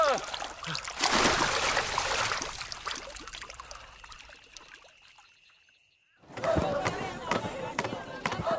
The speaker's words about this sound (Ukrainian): Орися, озирнувшись, побачила на березі Пітера, злякалась і сховалась у воді з головою. Іван шукає її, мацуючи по воді руками.